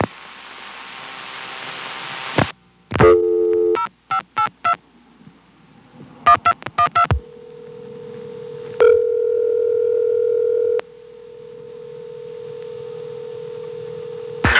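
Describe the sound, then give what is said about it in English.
Touch-tone telephone dialing of a run of zeros: short beeping tones in quick groups after an opening hiss, then a steady sustained tone that briefly shifts to a different pitch partway through. “I tried dialing a bunch of zeros in a row.”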